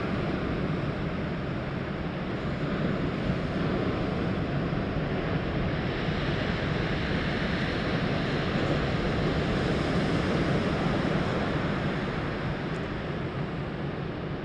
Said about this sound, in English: As you listen to the beach